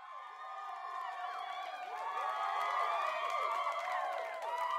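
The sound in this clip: Cheering crowd sound effect played from a computer, with many overlapping high voices whooping and shouting continuously at a moderate, even level.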